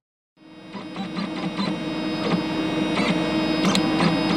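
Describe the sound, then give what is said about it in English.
A 3D bioprinter prints a small ear-shaped model from living cells, giving a steady mechanical whirring drone with faint hum and repeated brief ticking bursts. It starts abruptly after a short silence and runs alone without talk. “That's the sound of a bioprinter. It's a 3D printer that's using organic materials to create a small model in the shape of an ear. In other words, it's printing using living cells.”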